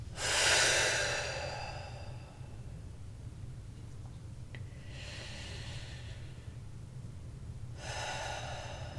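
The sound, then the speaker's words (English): Three slow, deep breaths, each a long airy rush of air, separated by quiet pauses over a steady low hum. “take a couple of deep, just really deep breaths.”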